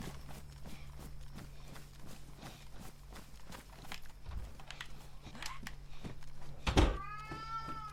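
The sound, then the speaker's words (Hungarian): A cat meows once near the end, a short, clear, fairly loud cry that stands out against a quiet, steady background of regular soft ticking or tapping. “Hoha, valami nem tetszik a cicának.”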